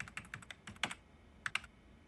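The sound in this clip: Typing on a computer keyboard while writing an instant message: quick, faint clicking keystrokes in two runs, a longer one and then a short one after a pause, with no talk.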